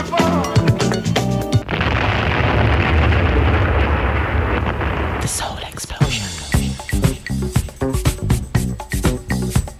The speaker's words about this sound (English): We begin bombing in 5 minutes.